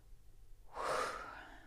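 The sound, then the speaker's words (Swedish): A single deep breath drawn in sharply after a moment of near-silence, a soft airy inhale that swells and then tapers off, faint and heard alone. “Så bara ta ett djupt andetag”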